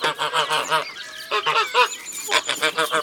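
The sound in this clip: Geese honking among other poultry, loud nasal calls in quick overlapping runs, a brief lull, then another burst of rapid honks.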